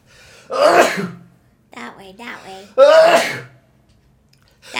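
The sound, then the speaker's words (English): A person sneezing: two loud, breathy bursts with short vocal noises between them, alone with no talk. “oh, I feel a sneeze coming on. I'm gonna try and work it out.”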